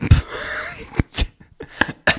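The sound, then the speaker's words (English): Someone splutters on a mouthful of coffee, producing a handful of abrupt, noisy, breathy bursts separated by short gaps, loud and close, with gasping breaths between them. “I spluttered on my coffee.”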